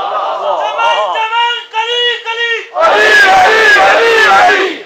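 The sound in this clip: At a religious gathering, a single voice calls out a slogan and a large crowd answers with a loud chanted religious slogan, the massed roar filling the second half.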